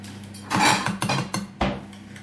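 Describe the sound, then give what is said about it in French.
A small spoon scrapes around a surface, making a few short metallic scrapes and clinks like cutlery against a dish, moderately loud and with no voices. “Tiens, avec une petite cuillère, racle tout ce qu'il y a là autour.”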